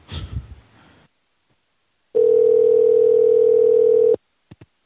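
A telephone ringing tone sounds on a call to another phone: one steady, buzzing tone that holds for about two seconds, then stops, followed by two faint clicks.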